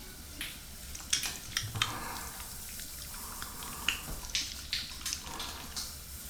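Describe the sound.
Water pours and splashes faintly while someone's back is washed before shampooing, with several soft, irregular splashes and drips over a low, steady trickle.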